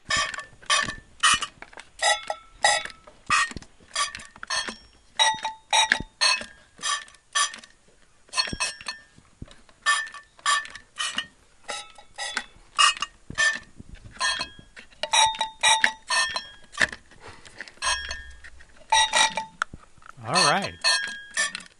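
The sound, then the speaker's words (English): Ode to Joy tapped out on a tin can: many short metallic clinks with ringing pitched notes, grouped into melodic phrases separated by brief pauses. “we have actually a little bit of music that you played for us on your tin can. Let's have a listen.”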